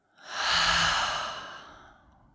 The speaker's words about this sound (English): Let's take another cleansing breath. Full inhale in through the nose. Out through the mouth.